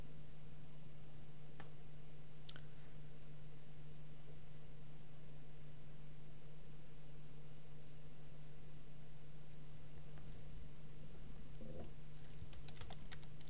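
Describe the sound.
Typing on a computer keyboard: sparse, faint key clicks scattered over a steady low hum and hiss, with a small cluster of taps near the end.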